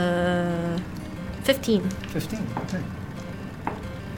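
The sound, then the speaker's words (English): Dice clatter during a tabletop role-playing game, heard as a few quick, light clicks and rattles. People talk over them. “That's too many dice rolling sounds.”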